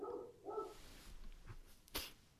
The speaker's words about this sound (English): now the dogs are barking right towards the end